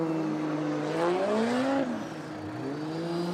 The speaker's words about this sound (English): Yeah, cars being requested to the burnout box to warm up tires on the front and the rear of these cars.